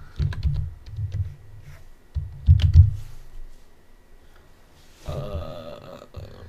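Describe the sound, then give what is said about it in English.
Typing on a computer keyboard to search for someone's net worth: a few bursts of clatter over a low rumble, followed by a denser, brighter stretch of sound near the end. No one speaks. “Type in his net worth.”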